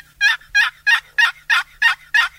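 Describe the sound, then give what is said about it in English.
Hen turkey yelps imitated on a turkey call: seven evenly spaced, loud raspy yelps in a steady rhythm, each short and nasal, with no talking. “So here's the basic hen yelp.”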